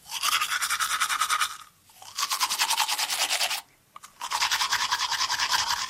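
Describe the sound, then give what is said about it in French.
Vigorous tooth brushing: loud, rapid scrubbing strokes come in three bursts, separated by two short pauses. “un brossage énergique des dents”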